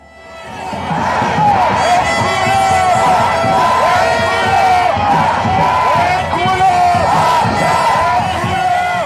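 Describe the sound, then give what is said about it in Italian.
Crowd at weekend protests in Israel against the Netanyahu government, with many voices chanting and shouting together in a loud, continuous roar. “Questo è il suono delle numerose proteste che si sono tenute questo weekend in Israele contro il governo Netanyahu.”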